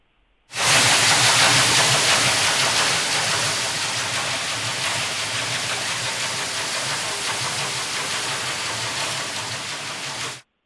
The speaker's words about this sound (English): This is a sound of a ship traveling, a shipping sound.